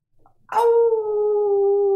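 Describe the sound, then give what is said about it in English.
A long, steady howl from a male canine follows a faint, brief lead-in. The clear, level tone is held unbroken for well over a second with no voices over it. “As you see him back, he lets out this longer held howl.”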